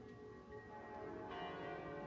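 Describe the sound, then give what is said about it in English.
Tower bells ring faintly in sustained, overlapping tones that blend into a steady metallic wash, with a fresh strike adding brightness partway through. “you hear the bells of the tower just start going nuts.”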